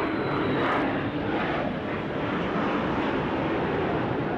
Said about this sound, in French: puis un premier drone Shahed qui passe à très basse altitude, juste au-dessus de nos têtes. Il est suivi, quelques secondes plus tard, par un avion de chasse.